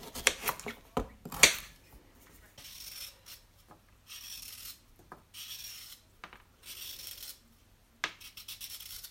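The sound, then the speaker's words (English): A peeler scrapes along raw carrots whose ends have been cut off, making repeated rasping strokes in a steady rhythm. The strokes are faint and follow a few sharp knocks and clicks at the start. “So cut the ends off and peel them.”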